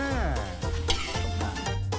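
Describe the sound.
Lemongrass stir-frying in a pan gives a steady, dense sizzle with stirring scrapes running through it, while voices talk over the cooking.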